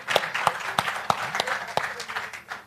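Audience applause at a book launch event, with sharp individual claps standing out at fairly regular intervals over a softer bed of clapping that thins toward the end.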